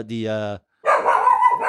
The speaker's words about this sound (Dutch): we worden gestoord door een hond die langsloopt. En de honden die hier binnen zitten, die reageren heel heftig.